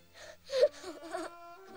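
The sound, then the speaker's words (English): A boy sobs into a pillow in muffled, wavering moans and whimpers that swell to a louder cry midway and then trail off. “Sobbing, Chris buries his head in the pillow.”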